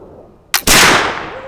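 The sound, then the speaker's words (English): A flintlock muzzleloader rifle fires a black powder charge: a sharp initial crack, then a split second later a louder, heavy boom that rings on and slowly fades. “The ramrod pushes the black powder and bullet into the bottom of the gun, back by the flintlock. Ready to fire. So, put on full cock. Here we go.”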